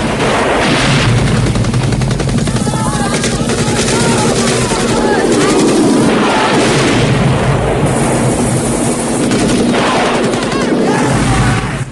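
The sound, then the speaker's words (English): Missile explosions and gunfire from the film Rambo, as missiles strike a walkway and guards scatter: a loud, continuous barrage of blasts and rapid shots with no pause from start to end. “Rambo fires a missile at a walkway. The walkway explodes. He fires more missiles. Guards scatter.”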